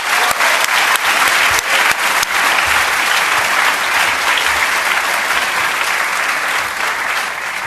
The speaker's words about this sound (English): So let's give him once again another very warm welcome.